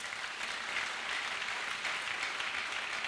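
A church audience applauds with an even, sustained patter of clapping that stays level and fairly soft throughout, with no voices standing out.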